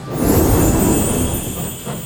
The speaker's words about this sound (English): I wonder where Story Train will lead us this time. We're entering the Rainbow Tunnel. Hold on, everyone. It's off to far, far away.